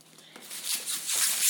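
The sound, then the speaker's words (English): Thin, foamy packaging material crinkles and rustles as it is unwrapped, a hissy crackling that grows steadily louder over a second and a half. “sorry about the horrible noise, Pete. It was wrapped in that foamy, not quite polystyrene, but that sort of... kind of thin stuff thin...”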